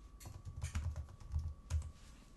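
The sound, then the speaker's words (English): Typing on a computer keyboard as a search is entered: quiet, quick keystrokes come in short clusters with brief pauses between them. No one speaks. “I typed in Shiny Lady and it came up with Cyclops.”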